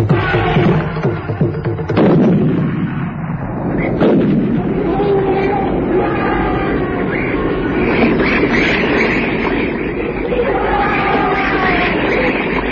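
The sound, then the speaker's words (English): Two loud Rigby rifle shots crack out at a charging bull, a couple of seconds apart, then a long rumbling din carries on. “The bullet from Grant's Rigby dropped one bull, but the rogue only staggered.”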